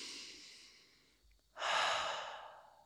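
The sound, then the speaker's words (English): A deep breath: a soft, airy exhale fades out, a brief pause follows, then a louder, longer rush of breath swells and holds to the end. “So what I want you to do is just take a deep breath.”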